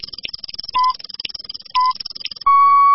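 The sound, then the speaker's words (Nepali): Radio time check signal on an FM station: two short steady beeps about a second apart, then a longer held tone, over a pulsing electronic backing. “Shukla Gandaki FM 97.6 Shukla Gandaki time check”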